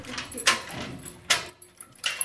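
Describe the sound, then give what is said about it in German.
Keys rattle and scrape in a jail cell door lock as police try one key after another: three sharp metallic bursts, with softer jangling between them. “Aber kein Problem, die Polizisten können ja wieder aufsperren. Aber nur mit welchem der drei Schlüssel?”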